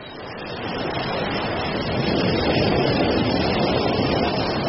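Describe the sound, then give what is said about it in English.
Ocean waves rushing in as the tide comes in fast: a dense, roaring surge that builds in loudness over the first couple of seconds and then holds steady, with no voices. “Watch out! You'll be cut off! The tide's coming in fast!”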